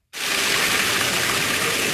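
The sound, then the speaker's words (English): More than 90,000 gallons of water gush into the drained Towanda Recreation Center swimming pool as it is refilled, a loud, dense, unbroken roar that begins abruptly. “More than 90,000 gallons of water gushing into the Towanda Recreation Center pool this Tuesday.”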